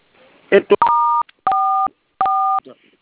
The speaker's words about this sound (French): Alors, vous allez composer toile 440.